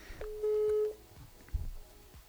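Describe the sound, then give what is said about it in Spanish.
A phone line gives a single steady electronic beep while a call is being reconnected. The beep lasts about half a second, is fairly faint, and is followed by low line noise and a soft thump. “ahorita estamos reconectando la llamada para lograr seguir con la entrevista”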